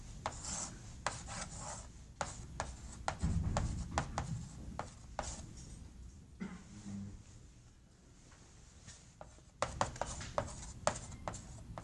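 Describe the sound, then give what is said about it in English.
Equations are written out by hand, a series of short scratchy strokes in irregular bursts that pause briefly before resuming. “And you still get to a kind of ugly solution, which I'll write out for you right now.”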